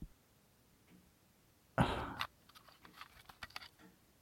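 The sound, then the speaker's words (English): Tape is spooled into a cassette by turning its small toothed wheel: a short rasping burst, followed by faint, scattered clicks. “I think I can just, like, spool it in. Okay.”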